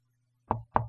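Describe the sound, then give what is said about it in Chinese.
Two sharp knocks on a door sound in quick succession after a near-silent stretch with a faint low hum. “这会儿敲门会是谁啊？”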